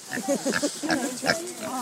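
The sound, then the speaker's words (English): Pigs on a farm grunting and oinking in a quick run of short, rough, nasal calls with a few higher squealing notes, moderately loud and fairly continuous. “Hello, pigs. Come over.”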